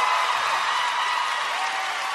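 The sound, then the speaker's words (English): An audience applauding at the close of a concert performance: a short, even burst of hissing clapping that holds steady throughout at moderate loudness. “round of applause.”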